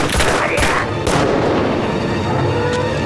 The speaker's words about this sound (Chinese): 开枪！ 开枪！开枪！开枪！